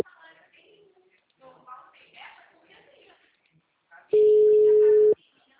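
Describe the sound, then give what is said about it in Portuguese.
A single steady telephone tone sounds after a dropped call. It is loud and holds for about a second near the end, following muffled, faint phone-line speech. “Desculpa, a ligação caiu. Aê, caiu.”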